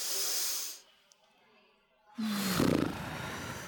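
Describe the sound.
A deep inhale into the belly during a breathing exercise: a breathy rush of air fades out, and after a quiet pause a louder, longer airy breath follows.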